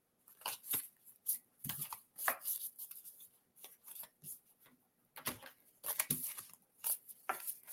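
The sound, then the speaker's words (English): A deck of cards is shuffled and a card pulled for a reading, in intermittent crisp, papery bursts of riffling and snapping separated by short quiet gaps, with no talking. “let me pull a card for you.”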